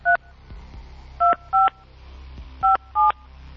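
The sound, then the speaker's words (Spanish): Telephone keypad tones as a phone number is dialed: five short, steady electronic beeps in an uneven rhythm, some closely paired, over a low background hum. “le vamos a marcar al 55, 22, 83.”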